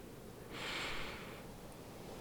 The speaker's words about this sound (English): take a deep and clearing breath